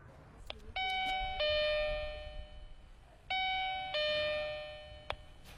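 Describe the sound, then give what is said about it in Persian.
A house doorbell rings twice, each ring a bright two-note electronic ding-dong with long, humming tails, over a steady low background rumble. “وقت رو از دست ندیم، زنگ رو به صدا در میارم.”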